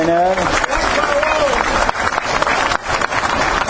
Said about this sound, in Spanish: A los bueno, médicos, un aplauso para el intendente.